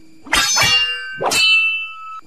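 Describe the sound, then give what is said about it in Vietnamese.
Metal weapons clash twice in a swordfight, each a bright clang followed by a long, shimmering ring that fades out. No voices are heard. “Bỗng nhiên, ở góc phía bắc, loáng thoáng nghe có tiếng binh đao giao đấu truyền lại.”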